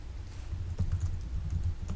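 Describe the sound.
Typing on a computer keyboard as a command is entered in a text game: a short run of quick, light keystrokes, faint and without talk.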